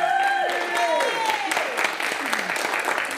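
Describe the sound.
An audience claps steadily to welcome a guest speaker at a church gathering, with voices rising over the applause throughout.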